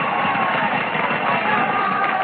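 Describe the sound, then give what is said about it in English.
Crowd cheering for the Notre Dame Fighting Irish football teams: a dense, steady roar of many voices and shouts that holds at an even, loud level for the whole stretch with no single voice standing out. “Those cheers aren't for me. Those cheers are for the Notre Dame spirit.”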